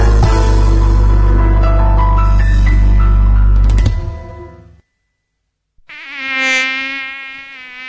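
A mosquito's buzzing whine, the dengue-carrying insect, rises in loudness and then eases as a high, harmonic drone after a stretch of music and a short silence.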